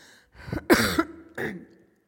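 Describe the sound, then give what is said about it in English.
A short burst of a few rough, throaty coughs in quick succession, heard alone without any talk. “Pardon my coughing.”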